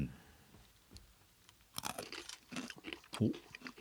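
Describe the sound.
Faint crunching and chewing of a stick from a wasabi-flavoured Koikeya snack. A few crisp, irregular bites and crackles grow a little louder toward the end.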